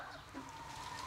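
Chickens clucking in a henhouse during a coop inspection, a brief, faint burst of soft, steady clucking.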